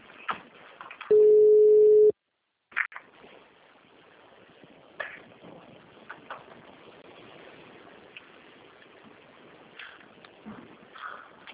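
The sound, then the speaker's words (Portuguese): A phone call is placed to add someone to a group call: a single steady ringing tone lasting about a second, then a short silence followed by faint voices and low noise. “Deixa eu já ligar para ela para incluir.”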